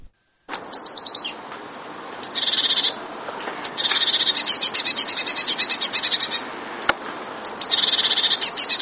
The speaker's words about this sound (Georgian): დიდი წივწივა ბეღურასნაირთა რიგის ჩიტია. მას და მონათესავე სახეობებს საქართველოში ბევრს ნახავთ და ალბათ ხშირადაც გაგიგიათ მისი გალობა.